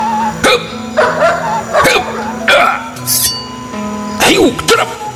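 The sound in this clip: A dog barks in a few sharp, rapid yelps and woofs, each a short harmonic burst, mixed with voices throughout.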